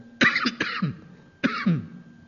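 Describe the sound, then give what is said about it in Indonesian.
A man giving a religious lecture coughs in two harsh bouts, each a cluster of throaty bursts, with a brief quiet gap between them. “Nah, batuk lagi.”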